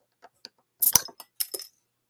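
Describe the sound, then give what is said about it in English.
A beer bottle of Dirty Bastard, 8.5% ABV, is opened. Faint clicks come first, then a sharp metallic crack. The cap then clatters and ticks onto a keyboard in a brief burst of light clinks. “I've got Dirty Bastard, though. It's 8.5% ABV, and it sounds something like this.”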